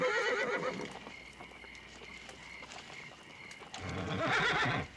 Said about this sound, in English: His presence calms the horses.